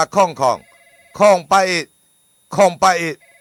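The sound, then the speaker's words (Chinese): A telephone ringing: a faint, steady electronic ring tone heard in the pauses between loud, lively speech from a voice talking over it. “啊，电话”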